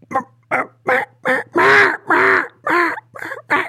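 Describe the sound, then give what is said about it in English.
A human voice imitates a hen mallard duck's quack as nine nasal, raspy quacks in a steady rhythm. The middle calls are longest and loudest, and the last few are shorter and softer. “A hen mallard goes,”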